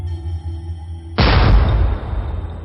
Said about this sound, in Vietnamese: Nòng pháo lóe ánh lửa, quả đạn pháo đã đâm đốt vào thân tàu kia.